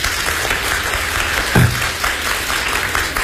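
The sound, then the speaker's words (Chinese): Audience applause during a live stage performance, a dense and steady round of clapping that fills the whole stretch, with one brief low thump midway. “来一段摇旗， 来，大伙儿掌声。”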